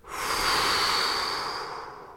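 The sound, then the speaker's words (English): A big breath through the mouth at the close of a guided relaxation: a single, steady, airy rush that swells quickly, holds, and tapers off over about two seconds. “Take a big inhale. Exhale through your mouth,”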